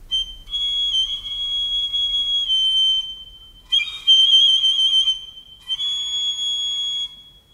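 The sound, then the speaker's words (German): A whistle blown in three long, high, steady tones separated by short gaps, the middle blast rougher and fluttering, all sounding alone without voices. “Hätte ich eine solche Pfeife, so würde ich Tag und Nacht pfeifen.”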